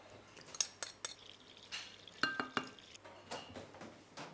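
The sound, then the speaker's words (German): Utensils clink and scrape against a bowl while yeast dough is mixed for a Baden-style plum cake, with many quiet, sharp taps in an uneven rhythm. “Also wir machen jetzt den Hefeteig für den Zwetschgenkuchen.”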